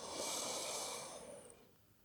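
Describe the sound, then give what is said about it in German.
One deep inhale, a breathy rushing draw of air that lasts just over a second and then fades out. No one speaks. “Alles, was du tun musst, ist einatmen”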